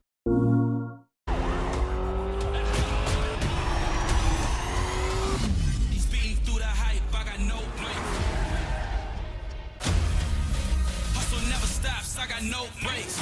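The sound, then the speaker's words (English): Car engine roar and tyre noise from a PS3 Fast and the Furious racing video game: a loud, continuous mechanical drone with shifting tones that cuts off abruptly partway through, then resumes. “here's another scene from Fast and the Furious PS3.”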